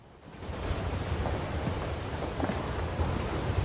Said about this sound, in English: The sea pounds against the shore and the wind rages.